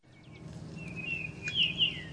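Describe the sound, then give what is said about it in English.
A Baltimore oriole sings outdoors in a few clear, whistled phrases, the brightest notes coming near the end over a steady low background rumble. “That's an oriole.”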